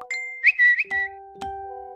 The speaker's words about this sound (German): Live-Ticker und Push-Nachrichten ploppen auf.